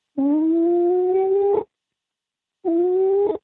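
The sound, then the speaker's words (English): A voice imitates an animal howl heard in the woods, giving two sustained, loud howls with a slight upward pitch drift. The first is longer and the second shorter, separated by a silent pause. “it's a really bad impression, but it was, you would hear the howl”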